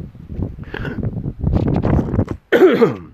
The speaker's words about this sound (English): Excuse me, hairball.